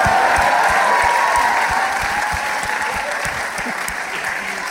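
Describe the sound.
Loud, dense audience applause fills the whole stretch, a steady wash of many hands that eases only slightly toward the end.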